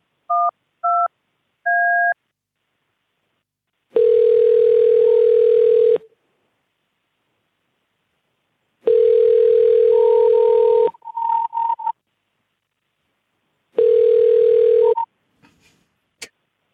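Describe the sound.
Telephone touch-tone dialing gives three short beeps, followed by three long steady telephone tones separated by silence, with brief crackling clicks after two of the tones.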